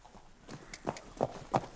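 A racehorse trots up on a yard surface, its hooves landing as a few evenly spaced, dull thuds that grow slightly louder over the short stretch, with no talk over them.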